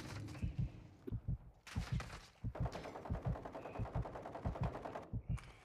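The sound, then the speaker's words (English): Gunfire in a video game: loud, rapid bursts of shots crackle in quick irregular volleys, with sharp, punchy reports repeating throughout. “Oh, there's people shooting at me now.”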